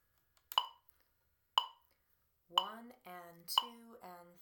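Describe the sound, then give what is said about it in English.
A metronome ticks during an eighth-note counting exercise, with four sharp, dry clicks about a second apart. A voice starts speaking in rhythm alongside the third click and continues between the later ticks. “So that would sound like this with the metronome.”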